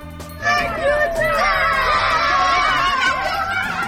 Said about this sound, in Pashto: دا د هغو ماشومانو غږ و چې په دې ولایت کې د واورې ورېدو وروسته په واوره کې لوبې کولې.